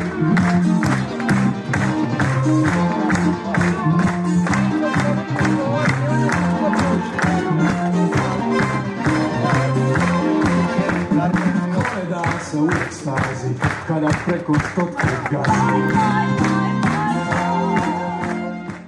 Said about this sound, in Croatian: Punih 5 minuta prisutni na velikoj sceni u ateljevu su se ga stojeći uz gromoglasan pljesak oprostili preminulog kolege i prijatelja.